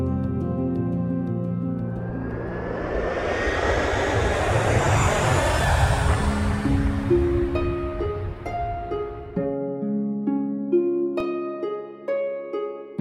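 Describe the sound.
Airplane engine noise inside a plane swells into a broad, rushing roar that peaks midway and then eases off, over a low steady drone, with soft melodic music tones running throughout and standing out clearly at the end.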